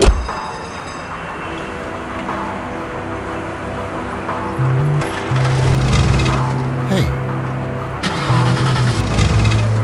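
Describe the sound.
An old car engine cranks over and over but fails to start, a rough, steady grinding drone that grows louder and busier about halfway through.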